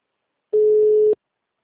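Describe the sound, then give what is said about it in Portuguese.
Telephone busy signal: one short, steady mid-pitched beep lasting about half a second, alone against silence. “O número chamado está ocupado. Tente novamente mais tarde.”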